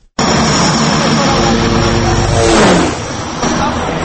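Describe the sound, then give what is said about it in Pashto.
A Russian Antonov plane of Pamir Airways lands at Bost airport in Lashkargah, Helmand. Its engines make a loud, steady roar that starts abruptly and eases a little toward the end. “دا د هلمند د لشکرګاه د بوست هوایی ملکی دګر پر ځاستیک باندې د پامیر د هوایی شرکت د روسي الوتکه انتونوف د راښت کېدو وخت”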